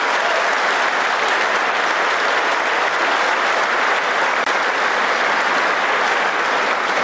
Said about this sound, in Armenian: Ուղերձի ընթացքում խանդավառված հանրապետական օրենսդիրները ժամանակ առ ժամանակ կանգնում եւ հոտնկայս ծափահարում էին իրենց լիդերին